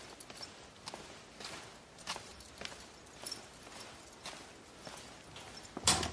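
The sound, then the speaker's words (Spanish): Slow, soft footsteps of a man walking alone across a courtyard at night, faint and evenly paced in a quiet setting, with no voices. “De noche camina ensimismado por el patio con las manos a la espalda, agarrando un manojo de llaves.”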